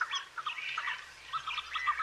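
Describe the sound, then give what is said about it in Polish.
Birds sing at fishponds in a protected ecological area, with many faint, quick chirps and short tweets scattered over a low, steady hum. “Ten śpiew ptaków jest tutaj bardzo słyszalny, szczególnie wiosną, kiedy ptaki są wtedy aktywne.”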